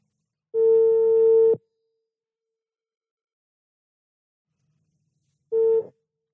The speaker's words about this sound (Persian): من تماسو میگیرم تا ببینیم بحث به کجا باز میشه.